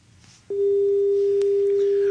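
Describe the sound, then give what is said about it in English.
A telephone dial tone on a call-in line cuts in suddenly and holds as one loud, steady, unbroken hum to the end, over faint background noise. “these dial tones are really concerning me. It's about the sixth or seventh since last night.”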